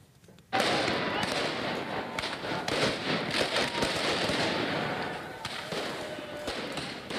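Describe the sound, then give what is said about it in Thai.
Fireworks set off by protesters during night-time street clashes with riot police in central Tirana, Albania: dense, continuous crackling and popping bursts, loud throughout after a sudden start. “กลุ่มผู้ประท้วงจุดดอกไม้ไฟแล้วก็คว้างปาสิ่งของใส่ตำรวจปราบจลาจลระหว่างเผชิญหน้ากันบนถนนใจกลางกรุงเตราน่าของอัลเบเนีย”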